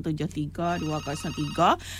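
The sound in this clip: A telephone rings for an incoming call, a steady electronic ringing tone running under a voice that talks or sings over the whole stretch.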